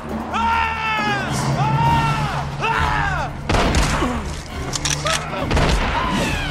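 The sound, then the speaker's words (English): Booming gunfire erupts in a courtroom comedy sketch, heavy repeated shots mixed with loud shouting voices. “Stop! You can't just shoot people!”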